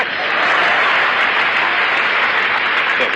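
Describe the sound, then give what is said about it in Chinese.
Audience applause fills a live stage comedy performance with a balcony crowd, a dense, steady wash of many hands clapping that stays loud and even throughout, with no break. “那个楼上的那个掌声稍微的差了一点。谢谢，那个楼上最后一排有两位没鼓掌 啊。”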